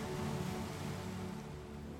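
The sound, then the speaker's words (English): Ocean waves wash back and forth over sand on a tropical shore, a steady, even surf roar that holds at the same level for two seconds with no voices. “The ocean washes back and forth over the sand.”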